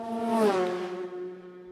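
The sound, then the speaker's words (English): Honda RS125 racing motorcycle engine during a race passing by: a high, buzzing whine drops sharply in pitch as it goes past, then holds lower and fades. “Sounds nice, the little RS125 Honda. He goes through.”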